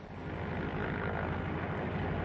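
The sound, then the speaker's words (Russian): Steady, loud propeller engine roar from a seaplane taking off, a dense droning rumble that holds level throughout with no voices over it. “И гидросамолет взлетел.”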